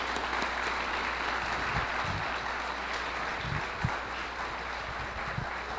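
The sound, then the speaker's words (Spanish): Audience applause at the close of a rum-making congress session, a dense, steady wash of clapping lasting throughout at a fairly even loudness, with a few sharper claps poking out near the end. “Amigas y amigos, que se escuchen fuertes los aplausos”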